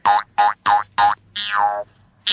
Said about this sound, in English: It bounced out of my hand. Oh, it's bouncing along the ground.